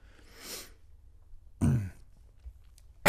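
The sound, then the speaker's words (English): Coughing and throat clearing from something suddenly caught in the throat: a few harsh, breathy bursts separated by quiet pauses, the middle one the loudest and rough. “I had something stuck in my throat all of a sudden.”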